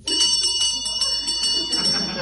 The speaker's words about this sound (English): And where's the bell? I think you have to pull that rather suggestive chain.